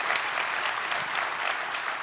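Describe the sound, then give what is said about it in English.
Applause from an audience at a political speech: dense, even clapping that holds a steady loudness throughout, with no single voice standing out. “I give him a round of applause.”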